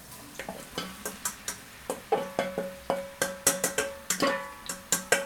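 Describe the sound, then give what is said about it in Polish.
Onion frying in hot olive oil in a pan, with many sharp clacking stirring strokes over a soft sizzle, coming at an uneven, fairly quick rhythm. “Poczekamy, aż się tłuszcz zagrzeje. I będziemy podsmażać. I będziemy podsmażać cebulę. No to wrzucamy cebulę na patelnię.”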